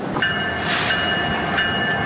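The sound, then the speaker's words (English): A train passes on railroad tracks with a loud, steady rumble and a high, sustained metallic whine that holds throughout without pause. “You can hear it on its way to wherever it's being sent to. The railroad tracks are a good place to record because it gives you that, like, downtown-y feel.”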